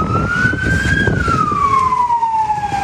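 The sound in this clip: A fire engine siren wails as the truck heads to a burning minibus in Manavgat, Antalya. The loud tone climbs slowly, then glides steadily downward over a continuous rumble of traffic.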